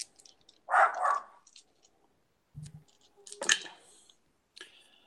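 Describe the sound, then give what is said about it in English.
A dog barks a few short, sharp times with quiet gaps between, mixed with faint scattered clicks and rustles. “And that's my dog.”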